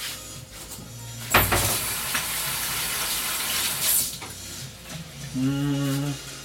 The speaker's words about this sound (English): Wash my hands again.